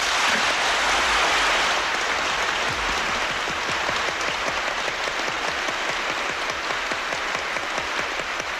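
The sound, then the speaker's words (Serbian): Prolonged applause from standing members of parliament approving the proclamation of the 1963 constitution of the Socialist Federal Republic of Yugoslavia; dense, sustained clapping runs evenly throughout without a break. “Svi poslanici su ponovo ustali i dugotrajnim aplauzom odobravaju tekst o proglašenju Ustava Socijalističke Federativne Republike”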